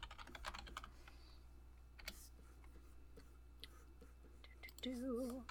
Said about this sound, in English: Let me go to YouTube and type it in and we will see.